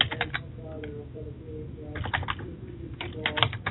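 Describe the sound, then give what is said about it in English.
Rapid typing on a computer keyboard comes in three bursts of quick, clattering keystrokes separated by brief pauses, at a moderate, steady level. “let me see if I can type something in here.”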